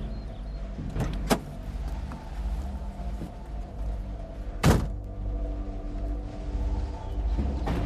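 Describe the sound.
A car trunk is opened: a light click, then a few seconds later a louder, dull thunk, both over a steady low rumble.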